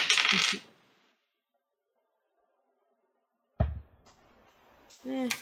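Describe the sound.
Dice are rolled on a table during a tabletop role-playing game: a bright clatter settles within about a second, and after a quiet pause a second rattling burst follows, with a voice heard briefly near the end.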